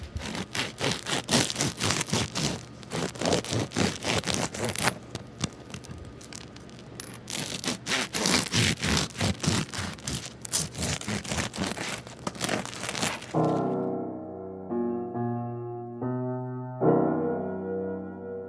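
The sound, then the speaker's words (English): A turkey slicer saws through a loaf of bread in many rhythmic, rasping back-and-forth strokes, pausing briefly midway before resuming; the cutting stops near the end and gentle tonal music follows. “use, if you have, a turkey slicer at home that you use just once a year, it works great for cutting bread. It is an awesome piece of equipment that you can use more than once a year. And so we're going to cut this.”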